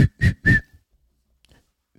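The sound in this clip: A person whistles four short, high, steady notes: three in quick succession, then a pause before a fourth, clear and alone with no talk.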